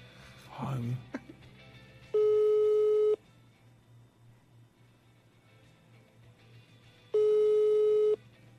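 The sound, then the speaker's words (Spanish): A telephone line's ringing tone while a call is being placed. Two loud, steady tones of about a second each are separated by a long silent gap, with a brief voice at the start. “Ahí está marcando.”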